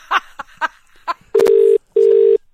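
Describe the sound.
Phone call being dialed: a few short bursts, then two long, steady, even-pitched ringing tones separated by a brief gap.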